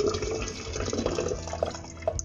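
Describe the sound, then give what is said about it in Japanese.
Boiling water poured over Phoenix Dancong Mi Lan Xiang oolong tea leaves makes a steady, splashing gush of liquid. It holds a fairly even level throughout, with small bubbling spikes near the end and no talk. “ここに熱湯を注いでいきます”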